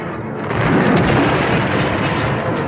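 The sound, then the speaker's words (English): A blast sets off an ice cave-in, heard as a heavy, deep rumble that swells after a moment and then keeps roaring with no break, and no voices over it. “Another blast starts an ice cave-in and all but buries the frightened C-3PO.”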